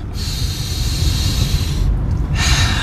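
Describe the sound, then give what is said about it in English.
A deep breath drawn in through the nose during a group breathing exercise: a steady, airy hiss of inhaled air, then a short pause before a second breath begins. “I want you to take three deep breaths. Take it in.”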